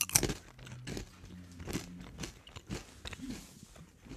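Crunching on basil-flavoured potato chips: many crisp, crackling bites and chewing sounds, quiet and irregular, with no talk.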